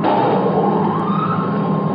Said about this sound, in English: The portable generator is within the field. Stand by. I'm coming to full power. Now.